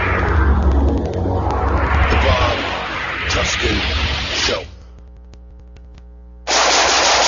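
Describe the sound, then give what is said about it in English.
Rapid, loud bursts of gunfire from shooting, a dense rattling stream that drops away briefly, then resumes at full strength. “Nice shooting.”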